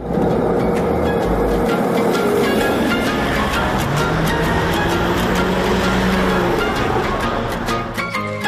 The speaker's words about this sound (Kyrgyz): Эмне менен барасыз? Маршрутка. Маршрутка менен. Кеттик жүрүңүз.